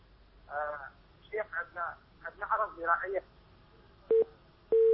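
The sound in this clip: A phone line dropping during a radio call-in from a caller in Iraq: talk is followed by two short, steady, single-pitched beeps of the line tone at the end.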